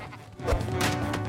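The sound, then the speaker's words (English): Sheep bleat amid a dense, noisy clatter as a flock runs amok inside a house. The sound is a loud, continuous wash without clearly separated calls. “As the sheep run amok under Timmy's mum's stern command”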